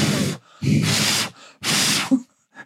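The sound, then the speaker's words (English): Deep cleansing breaths blown close into a microphone, three long, loud, rushing bursts of breath with short gaps between them, with no talking. “It's because I'm doing a cleansing breath.”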